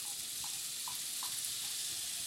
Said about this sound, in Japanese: まずフライパンにバターを入れて火にかけていきます。バターが溶けたら玉ねぎを加えていきます。